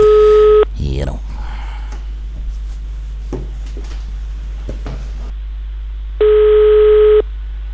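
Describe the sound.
A telephone call is placed: a short steady dial tone, then scattered dialing clicks and clunks over a low constant hum, and finally one long, loud ringing tone.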